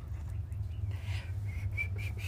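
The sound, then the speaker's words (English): A person whistles to imitate birdsong, giving about four short, high repeated notes after faint bird chirps. Everything is quiet over a low background rumble. “Sometimes I try to copy the birds. I hope that y'all can hear the birds. And then the whistle that's obviously closer was mine.”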